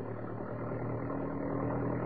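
Steady engine drone from a Jeep driving down a city road toward the outskirts, a continuous low hum with a faint buzzing overtone that holds unbroken throughout, with no voices.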